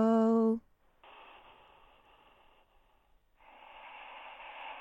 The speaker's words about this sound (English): He does breathe clearly though, doesn't he? He's got good nostrils.